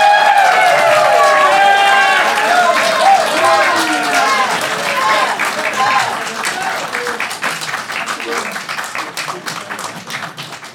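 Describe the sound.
A live audience claps and cheers as a character is introduced on stage. Whoops ring out over loud clapping at first, then the applause thins into scattered claps and fades gradually over about ten seconds.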